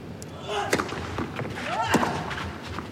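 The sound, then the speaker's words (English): Scuttling footsteps of the German player Zverev chasing a drop shot on a tennis court: a few sharp scuffs and thuds, with faint squeaky scrapes between them. “Drop shot, Rune. Oh, that was good. It had to be good. You could hear the scuttling feet of the German.”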